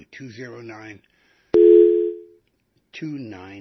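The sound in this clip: A steady, mid-pitched telephone tone sounds after a caller's line drops on a radio call-in show. It starts with a sharp click, holds for under a second, and falls between stretches of the host's talk.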